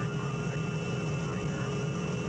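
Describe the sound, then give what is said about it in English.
An aircraft coming in to land gives off a loud, steady engine drone with a constant high whine riding over it, unbroken for the whole stretch, with no voices. “Your attention, please. We will soon be landing at Westworld, the ultimate resort.”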